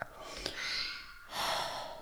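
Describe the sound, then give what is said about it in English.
A person takes deep breaths: two long, soft, airy breaths, faint and without words. “Take a deep breath. Take a deep breath.”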